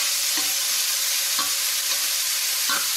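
A sausage fries in a pan with a loud, steady sizzle throughout, broken by a few short stirring scrapes.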